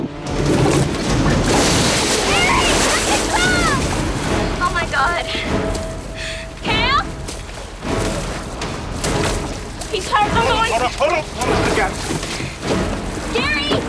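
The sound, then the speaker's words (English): Water splashing and churning as a man thrashes about after surfacing near a barge. The sloshing is loud and continuous, with uneven surges and bursts throughout. “He rolls over and over, losing his bearings, and tries to struggle to the surface. He bobs up a little way away from the barge and thrashes about in the water.”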